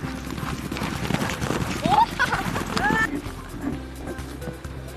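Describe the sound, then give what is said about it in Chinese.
Horse hooves clip-clop at a run in Zhaosu County, Xinjiang, a rapid, steady stream of beats that holds through the whole clip at fairly even loudness. “马儿跑起来之后。爽，”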